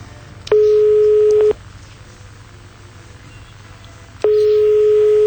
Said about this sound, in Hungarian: A Lacit hívod, ugye? Igen, a Lacit hívom.